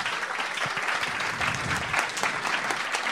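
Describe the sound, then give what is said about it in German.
Audience applause for a shofar blower after a demonstration of the ram's-horn shofar, a full, steady burst of many people clapping that stays loud and even throughout. “und ich denke, dieser Schofarbläser verdient einen großen Applaus”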